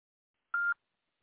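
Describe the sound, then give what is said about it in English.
A single short electronic beep sounds alone, a steady mid-high tone lasting about a fifth of a second, clean and even, with silence before and after. “what's that beep? I don't know, I hear some beep, just checking right here, here.”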